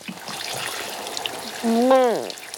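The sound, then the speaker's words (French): Water runs in a shower at a swimming pool, a steady broad hiss throughout, with a brief high, wavering voice-like sound breaking in near the end. “Avant d'entrer dans l'eau de la piscine, il faut se doucher.”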